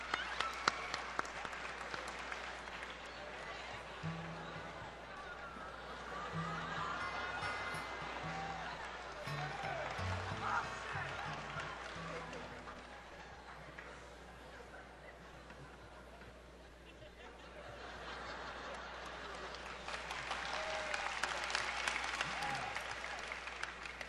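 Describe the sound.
Applause from a concert audience welcoming Paul McCartney, who is in the crowd. Sustained clapping and crowd noise dips in the middle, then swells again toward the end.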